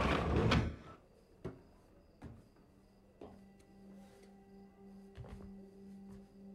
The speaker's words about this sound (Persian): حالا پنجره رو ببند سریع.